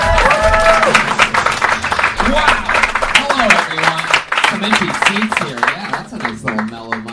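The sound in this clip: Audience applause and cheering at the Comedy Store during a live comedy show: dense, loud clapping with whoops and shouts from the crowd, holding steady and then thinning slightly toward the end.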